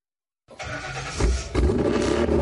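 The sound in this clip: A car engine starts and rumbles with a deep, loud roar that swells in level a couple of times as it runs.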